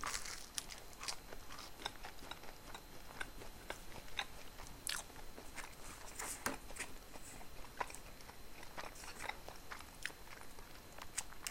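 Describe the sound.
Chewing and biting on coffee soft-serve ice cream: a quiet, steady run of many small crunchy clicks and moist smacks, with no talk.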